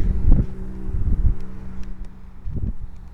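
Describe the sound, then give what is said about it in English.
Wind gusting outdoors by a reed line along a boardwalk. A few low, rumbling bursts buffet the microphone and then die back over a steady, breezy hiss. “because the wind is so bad. Comes and goes and bursts. Wind burst.”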